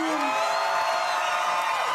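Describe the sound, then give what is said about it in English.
Wild crowd cheering in Tel Aviv as freed hostages return home from Gaza: a continuous wash of shouts, whoops and high cries, loud and unbroken from start to finish. “Wild cheering in Tel Aviv after all 20 remaining living hostages held in Gaza went home this morning.”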